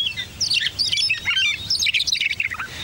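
Meadowlark song, from a ground-nesting grassland bird: bright, varied whistled chirps and quick trills repeat in lively bursts throughout, with no talk over them.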